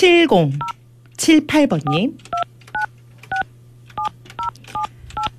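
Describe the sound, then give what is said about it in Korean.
Telephone touch-tone dialing while placing a call: a voice speaks briefly, then a quick series of short, evenly spaced keypad beeps follows, each a crisp dual tone. “자 이분 한번 또 전화 연결 한번 해보겠습니다.”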